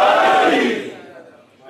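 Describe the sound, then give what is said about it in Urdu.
A crowd shouts the Naara-e-Haidari slogan in unison, a single loud, sustained roar of many voices that swells at once and then fades away over about a second. “اس وقت نعرہ لگائیں تو خوش ہو کے پتہ چلے گا. نعرہ حیدری.”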